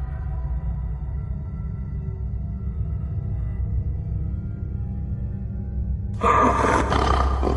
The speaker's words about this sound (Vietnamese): tinh hổ ẩn hiện phía sau và gầm lên một tiếng vang động tâm